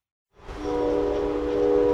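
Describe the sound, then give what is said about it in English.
An Amtrak passenger train rolls on the rails on the Pennsylvania line out of Pittsburgh. A steady, loud rumble fades in after a brief silence and carries a sustained tonal hum. No one talks. “I'm on Amtrak's Pennsylvania line. We rolled out of Pittsburgh about 30 minutes ago, and the train is still pretty quiet.”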